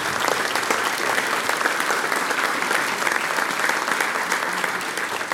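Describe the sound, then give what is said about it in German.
Steady audience applause for the women performers at a music event, a dense, even patter of many hands clapping throughout without any break. “Also, großen Applaus für die Damen, die”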